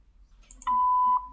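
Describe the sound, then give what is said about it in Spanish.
An answering machine gives a single steady, mid-pitched beep lasting about half a second, preceded by a few faint clicks. “mensaje después del tono.”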